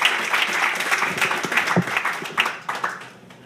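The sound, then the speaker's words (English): Audience applause for a poet at a reading: dense, steady clapping from a crowd that thins slightly and softens toward the end, with no voices over it. “Let's give a big warm round of applause for Barbara Jean Orton.”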